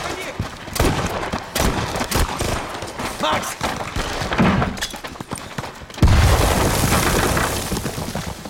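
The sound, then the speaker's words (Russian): Gunfire from an evening shootout in a dark forest: many sharp, rapid shots crackle in dense irregular bursts, and the firing grows heavier and more continuous for the final stretch. “Вечер. В темном лесу перестрел.”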